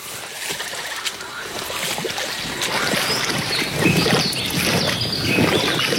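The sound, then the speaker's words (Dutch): A warbler of the genus Sylvia sings in dense undergrowth, giving quick, high chirping phrases woven through a busy, rustling background that grows steadily fuller and louder over several seconds. “volgens mij is dat een zangvogeltje van het geslacht Sylvia. Die houdt zich heel graag op in die dichte ondergroei hier.”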